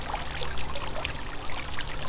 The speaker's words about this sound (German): Mit seinen liebevoll gepflegten Gärten und plätschernden Springbrunnen.